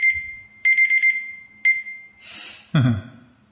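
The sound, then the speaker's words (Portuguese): A timer alarm goes off with high, piercing electronic beeps in short clustered bursts. A few groups of rapid pulses repeat with brief gaps between them. “É o temporizador, tá?”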